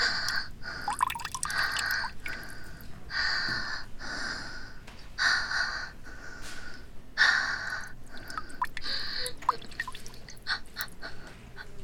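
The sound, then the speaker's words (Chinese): Faint liquid drips and splashes in short, irregular bursts throughout, soft and steady with no talking. “中间夹杂着极轻微的液体持续冲击或滴落的声音”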